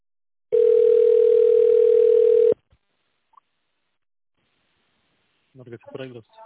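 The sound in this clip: Single long, steady telephone ring tone after an office extension is dialed, followed by silence and then a short stretch of speech at the end.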